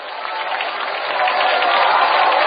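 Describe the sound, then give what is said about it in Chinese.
Audience applause at a Buddhist fellowship gathering: a dense, continuous wash of clapping that swells slightly louder toward the end. “那我们再次以最热烈的掌声感恩大慈大悲的观世音菩萨，感恩大慈大悲的卢军宏台长，”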